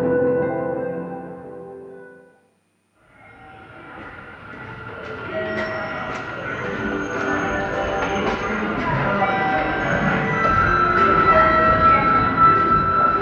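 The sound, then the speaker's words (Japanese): A subway train at Arai underground station in Wakabayashi Ward, Sendai: a steady tonal hum, a brief silence, then train rumble and clatter that builds steadily louder, with high squealing tones on top. “仙台市若林区にある地下鉄荒井駅です。”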